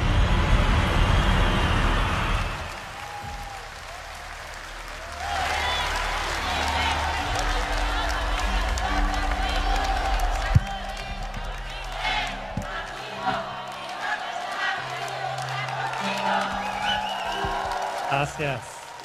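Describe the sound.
Applause and cheering rise from a church audience at an evangelization gathering as its founder is welcomed. A loud burst of clapping fills the opening seconds, then continues more softly alongside sustained musical tones.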